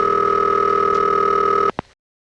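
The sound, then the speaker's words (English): A steady telephone tone on a line through an electromechanical exchange holds loud and unbroken, then cuts off with two sharp clicks before falling silent. “You're dialing and then it's communicating with the selectors through that pulsing. At the end, you get this final crush of static and your call's gone through.”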